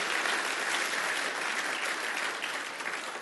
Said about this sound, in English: Give Sam a round of applause.